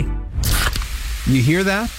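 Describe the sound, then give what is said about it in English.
A zero-sugar cola is opened with a short, sharp, fizzing hiss, and then a voice speaks. “That's the sound of Pepsi Zero Sugar.”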